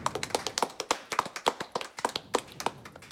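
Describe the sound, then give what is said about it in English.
A game show prize wheel spins, giving a run of many sharp, evenly spaced ticks that stand alone at a moderate level and keep a steady clicking rhythm. “Spin that wheel.”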